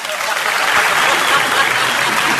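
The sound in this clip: An audience at a live comedy show applauds a children's character. The clapping is loud, dense and continuous over a couple of seconds.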